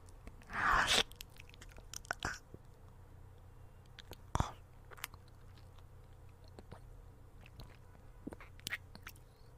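A crisp bite into food, then quiet, wet chewing with a few faint crunches and clicks scattered over a hushed background.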